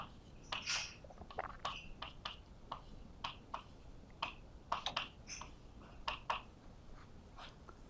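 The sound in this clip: Something being written down during a physics lecture: many short, sharp taps and scratchy clicks in an irregular rhythm, fairly faint over a steady low background hiss.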